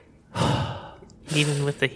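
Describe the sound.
A person imitates rhythmic tactical breathing: a long, breathy exhale, a pause, a voiced huffing breath, then one short, sharp puff.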